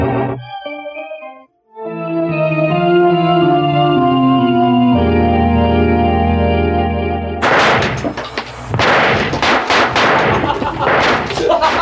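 Police gunfire erupts as a loud, dense burst of many rapid shots filling the second half, after several seconds of held, steady tones.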